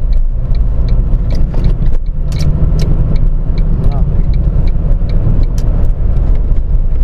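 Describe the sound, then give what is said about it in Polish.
Steady engine and road noise from a car overtaking a learner driver's car: a continuous loud rumble without distinct separate events. “Teraz było ciekawe wyprzedzanie Elki.”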